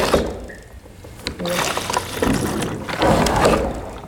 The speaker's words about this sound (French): On ouvre le bouchon, on vient plonger la tige d'aspiration dans le bidon et ensuite on actionne la pompe. Et ça fait transférer le liquide de là à la cuve.